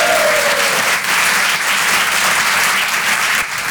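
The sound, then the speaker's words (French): Audience members applaud and cheer the presenter of a live show, their clapping loud and sustained with a few cheers rising over the dense, continuous patter. “Un maximum de bruit pour le présentateur Guillaume, s'il vous plaît, quand même. Du bruit, du bruit.”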